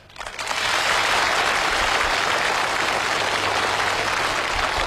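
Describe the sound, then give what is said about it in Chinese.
Applause from an audience swells within the first moment into a dense, steady wash of clapping that stays loud and even to the end, with no clear voices on top. “还鼓掌呢？”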